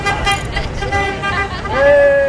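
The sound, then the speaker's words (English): Car horns honking from passing traffic on a hot sunny day in California, several toots including a sustained tonal blast near the end, over a steady rumble of road noise and vehicles driving by. “People honk their car horns as they drive past this house.”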